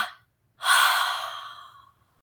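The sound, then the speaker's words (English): Deep breathing: a short breath sound fades out at the start, then after a pause a loud, airy breath swells and slowly tapers away over more than a second, with no other sound. “Awaken with a big, deep breath in your nose. Two exhales out of your mouth.”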